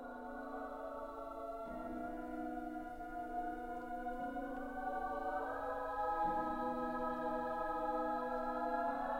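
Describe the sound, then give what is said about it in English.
Soft orchestral music depicting the planet Neptune: quiet, sustained chords that drift slowly from one harmony to the next, with no voices over it. “The music you're hearing right now is from his movement about the planet Neptune, the Mystic.”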